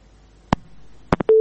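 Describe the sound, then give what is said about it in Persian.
A telephone call cuts off: three sharp clicks sound on the line, then a steady, low, loud tone begins and holds to the end. “فکر کنم تماس اینا قطع شد.”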